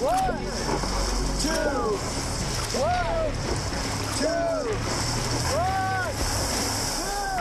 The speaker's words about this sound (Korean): 본격적으로 급류를 타기 시작합니다. 보트를 통째로 집어삼키는 급류 앞에서